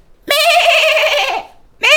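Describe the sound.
A human voice imitates a sheep bleating: one long, wavering, nasal bleat, then the loud start of a second that breaks off.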